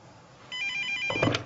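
A telephone rings with a bright, warbling electronic tone that starts partway in and holds steadily. A louder clatter follows near the end. No voices are heard.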